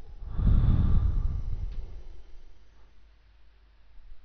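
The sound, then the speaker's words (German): A single slow breath, a soft airy rush that swells early, then fades gradually over about two seconds into near quiet. “Ein zweites Mal. Einatmen. Und wieder ausatmen.”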